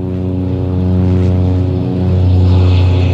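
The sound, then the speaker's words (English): Propeller drone of a small plane speeding down a runway for takeoff: a loud, steady engine roar with a buzzing, harmonic tone that swells slightly toward the end, with no voices. “A small plane speeds down the runway.”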